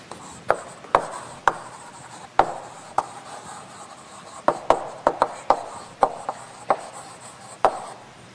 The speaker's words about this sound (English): Oh, I should probably write this over here.